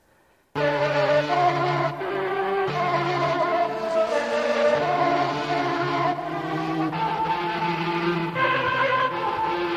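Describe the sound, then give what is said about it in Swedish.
Insect wings buzzing in flight: a sustained, harmonically rich drone that holds steady with a few abrupt shifts in tone, heard alone without talk. “Skulle det inte kunna vara möjligt att insekternas vingtoner har del i vår musikuppfattning?”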